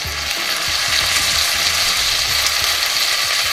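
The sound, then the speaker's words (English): Bacon sizzling in a pan, a dense, steady, crackling hiss that stays loud and even throughout with no voices. “This is supposedly one of the most satisfying food sounds. It's the sound of sizzling bacon.”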